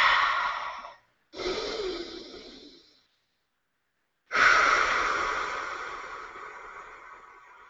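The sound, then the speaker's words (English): Deep breaths drawn in and let out slowly during a guided meditation: loud, airy, breathy rushes in three separate stretches with silent gaps between them, the last breath the longest and fading gradually. “Take a deep breath.”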